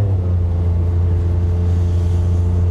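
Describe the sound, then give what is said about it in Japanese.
A car engine drones and strains as the vehicle starts up a steep slope, a steady low, loud hum that holds without break and with no talk over it. “なんかちょっと急勾配になり始めて車がうなり始めました”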